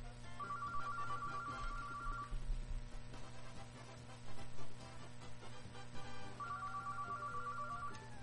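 A telephone ringing with an incoming call on a radio call-in line: two bursts of a high, trilling electronic ring separated by a pause of several seconds, fairly faint over a low steady hum.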